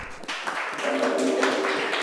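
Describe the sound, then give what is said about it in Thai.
Classroom applause for a group of students: steady, dense clapping that starts softly and fills out after a moment, then holds at an even level. “เก่งมากปรบมือให้กลุ่มหนึ่ง”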